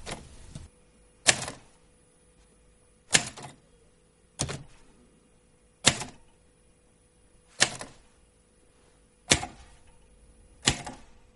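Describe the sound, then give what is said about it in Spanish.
Typewriter keys strike paper one at a time at a slow pace, each producing a sharp, loud mechanical clack. Roughly one strike falls every one and a half seconds, separated by near silence. “Luego empieza a pulsar las teclas muy lentamente dejando algo escrito sobre el papel.”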